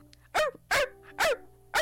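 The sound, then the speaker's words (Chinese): A person imitating a small dog barking, four sharp, high-pitched yapping barks at an even rhythm, loud and alone, with short silences between them. “那现在我为大家带来一段小型犬演唱”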